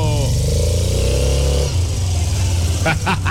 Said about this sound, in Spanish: ¡Prende la moto!